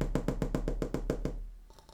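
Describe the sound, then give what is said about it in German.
Knocking on a window pane: a rapid, even run of sharp taps lasts just over a second, then stops and leaves near-quiet with a faint low hum. “Es klopfte an die Scheibe.”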